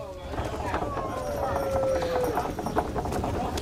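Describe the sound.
Clopping hooves of a horse-drawn carriage, a steady run of many quick hoof beats heard throughout.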